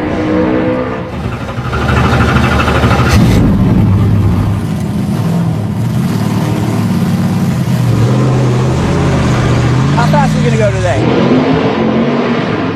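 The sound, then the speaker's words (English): A two-seater race car roars steadily through laps on a track, its loud, continuous engine note surging and easing slightly, with people talking over the noise throughout. “2023 Verizon 200 champion Michael McDowell took a few laps in a two-seater car, and Fox 59 photojournalist Nate Gould also got to take a lap with him.”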